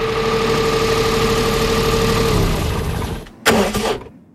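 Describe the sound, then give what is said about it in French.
A car engine idles with a steady, loud, droning hum, then sputters and stalls into near silence, followed by a brief loud clunking burst. “J'ai calé.”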